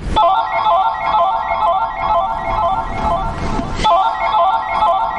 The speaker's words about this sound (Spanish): Al instante su hija lo llama desde casa.